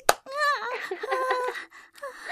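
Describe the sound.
A single sharp hand slap on buttocks, a spank, cracks at the very start. It is followed by a drawn-out vocal moan whose pitch wavers.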